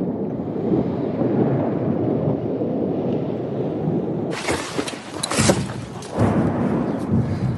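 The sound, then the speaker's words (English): Artillery rockets fired from a distance, launched from Russian territory toward the Kharkiv area: a broad rushing roar swells suddenly midway and holds for a couple of seconds over a steady, wind-buffeted rumble. “you can see more artillery rockets apparently be firing from Russian territory towards the territory, I would say around Kharkiv. I don't know if you can hear this right now.”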